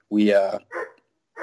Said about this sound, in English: my dog's really barking. I don't know if you can hear that.